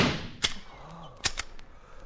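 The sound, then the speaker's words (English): Rifle gunshot of an explosive bullet fired at a vine hanging from a tree in Malaya: a few short, sharp cracks, fairly quiet, separated by brief gaps over a low, steady background hiss. “Watch what an explosive bullet does to it.”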